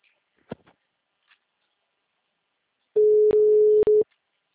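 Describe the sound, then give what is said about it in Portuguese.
A telephone tone sounds as a call fails to connect. It is a steady pitched beep about a second long, broken by clicks, following a few faint clicks in near silence. “A ligação não tá concluindo.”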